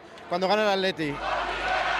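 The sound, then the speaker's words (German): A crowd cheering outside the PSOE party headquarters in Madrid on election night. One voice lets out a sustained shout, then a steady mass roar of cheering people follows. “Hunderte Menschen stehen vor der Zentrale der PSOE, jubeln und schwenken die roten Fahnen der Partei.”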